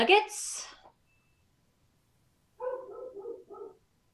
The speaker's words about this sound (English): So as promised, my daughter walked in, and now the dogs are barking right towards the end.